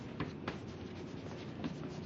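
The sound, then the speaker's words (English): A pen scratches on paper as someone writes by hand. The soft, continuous scraping carries a few brighter strokes and stays faint and even throughout, with no talking. “Now, let me write this in.”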